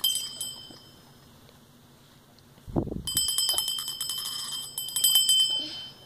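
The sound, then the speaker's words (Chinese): A small bell shaken and ringing, with bright high jingles in a brief burst at the start and a longer, louder run of rapid ringing later. A dull low thud falls between the two bursts. “摇一下，它就响叮当。”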